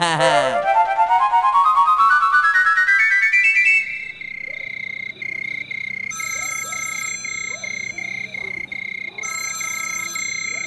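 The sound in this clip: A mobile phone rings at midnight: an electronic ringtone sweeps steadily upward for a few seconds, then settles into sustained high tones. Repeated bursts of bright warbling and low croak-like chirps play over it.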